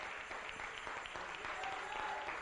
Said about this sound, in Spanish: Dele una ofrenda de palmas al Rey.